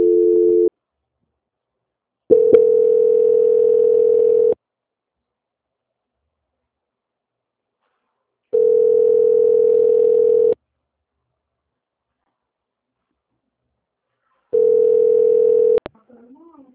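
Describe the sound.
Telephone line tone during a call transfer, a steady low-pitched tone in four long bursts separated by silences, ending with a short click.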